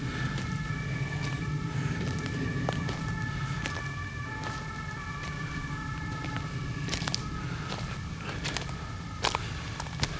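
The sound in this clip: Faint emergency siren, a light horn-like tone heard during an uphill hike on a steep path, holding steady tones over constant outdoor background noise, with no talk.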